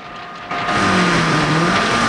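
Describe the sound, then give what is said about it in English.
Engine roar of a flimsy buggy heading off-road from a desert road as guards' cars give chase; a loud rev surges in partway through and settles into a steady, wavering drone. “Some guards in a green car give chase along the desert road. Two more green cars hair past the exit booth, which collapses in a cloud of dust. Bond drives the buggy off-road.”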